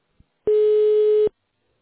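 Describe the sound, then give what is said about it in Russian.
A single steady telephone busy-signal tone sounds loud and clean for under a second, after one tiny faint click. No voices accompany it. “All circuits are busy now. Please try your call.”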